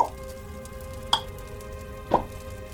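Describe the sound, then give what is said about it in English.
Light drips of water in an echoing space near a large fire: three sharp, ringing drops about a second apart over a steady low hum. “There is a ever so like light drip of water from somewhere else. So kind of you getting this like echo,”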